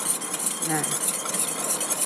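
An oil mixture is stirred in a container, giving a continuous soft swishing and scraping that stays fairly even throughout.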